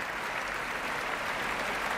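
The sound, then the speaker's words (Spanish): Audience applause in a standing ovation for a national orchestra in Spain after a concert: dense, even clapping that stays loud and steady from start to finish, with no voices standing out. “Grandes aplausos, gran ovación para la Orquesta Nacional de España puesta en pie.”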